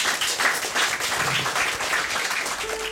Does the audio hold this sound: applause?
yes